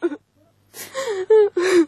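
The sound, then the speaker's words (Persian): Whimpering and crying from a person, heard as a brief sob followed after a pause by several drawn-out, wavering voiced cries that grow louder toward the end. “بس از دگه گریه نکو”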